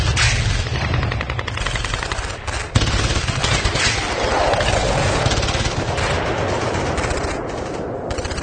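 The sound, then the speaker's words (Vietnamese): Heavy machine gun fire rattling out of a casuarina forest, a dense, rapid stream of loud cracking shots that runs almost unbroken, with only a brief dip before the firing resumes just as intensely. “Một tràng đại liên nổ vu vơ từ phía rừng phi lao vọng lại”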